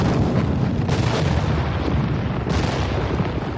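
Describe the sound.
Cannon fire in a battle, canister shot or shell, forms a dense, continuous roar of booms and low rumble with a couple of sharper bursts, loud throughout with no clear gaps.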